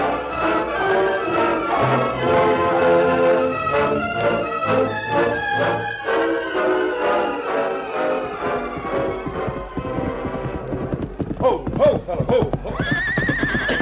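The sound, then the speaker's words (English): Horses gallop with steady clip-clop hoofbeats and a whinny, loud and continuous over sustained tonal backing throughout. “Tonight we ride back to Bluefield.”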